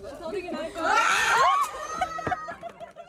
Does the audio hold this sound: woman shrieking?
yes

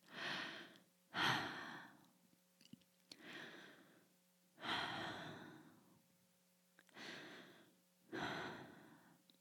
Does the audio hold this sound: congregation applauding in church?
no

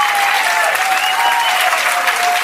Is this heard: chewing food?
no

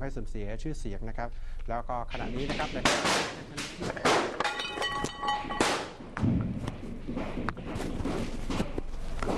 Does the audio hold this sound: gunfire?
yes

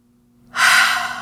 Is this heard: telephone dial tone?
no

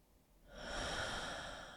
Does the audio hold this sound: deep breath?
yes

